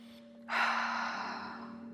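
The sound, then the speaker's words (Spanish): One deep breath taken during a guided meditation, an airy, audible intake that swells suddenly and then eases off slowly over a steady low drone. “Ahora respiro profundo”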